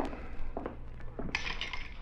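Glasses clink faintly as a drink is mixed, a few light, hollow knocks followed by a brighter, rattling jingle toward the end.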